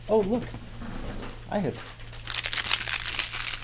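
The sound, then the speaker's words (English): A crinkly bag is rummaged through, its plastic crackling and rustling in quick irregular bursts after a couple of brief voice fragments at the start. “rifle through a bag of potato chips, or look for their pencil in the bottom of a bag where they've got their entire life in a bag, you know, like one of those crinkly sounding bags.”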